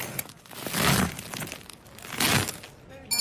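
Crackly, crunching rasp of a knife cutting through crusty Pfistersonne farmhouse bread with a distinctive crust, in two drawn-out swelling bursts of brittle crackle.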